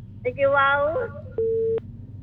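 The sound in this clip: Telephone busy tone after a dropped call: a single steady, mid-pitched tone that lasts under half a second follows a brief stretch of talk, then cuts off.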